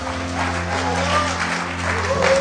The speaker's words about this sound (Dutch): Let's give the band a hand, Laten shall we? Laten we de band een applaus geven.